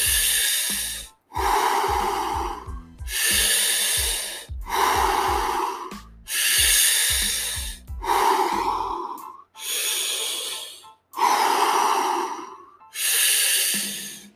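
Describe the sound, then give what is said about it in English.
Fast rhythmic breathing exercise: a series of forceful, loud breaths, each a hissing rush of air, separated by short gaps and repeating at a brisk, regular pace. “We've got 10 more breaths. Pick up the pace.”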